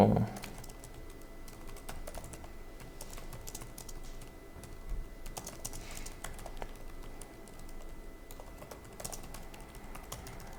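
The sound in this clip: Many rapid, irregular clicks of a computer keyboard as someone types code, writing a test for a left-pad string function, keystrokes pattering steadily with short pauses.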